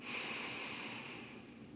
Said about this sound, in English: So let's start by taking a nice deep breath in.